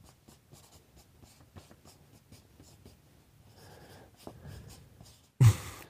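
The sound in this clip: Pen writing on paper: many quiet, rapid scratching strokes in an irregular rhythm, ending with a short, loud bump.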